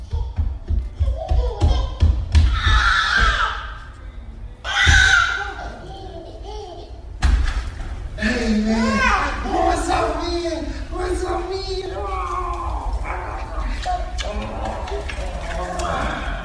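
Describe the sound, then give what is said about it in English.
A toddler squeals excitedly and pounds on a window at the front door on seeing his father arrive. Rapid thumping taps mark the opening seconds, followed by high, shrill squeals and other voices chattering throughout. “he's so excited when he sees his daddy, he starts like squealing and pounding on the window.”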